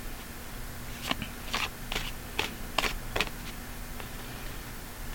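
Playing cards, a tarot-style deck, are shuffled during a card game, making a quiet series of crisp, brief papery snaps spaced unevenly over a soft background hum, with no talk.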